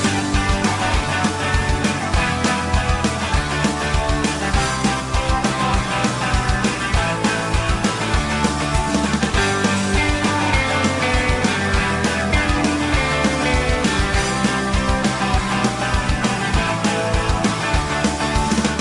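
A theme song from a TV series plays: a full band arrangement that stays dense and steady throughout, with a driving beat and sustained instruments at an even, fairly loud level.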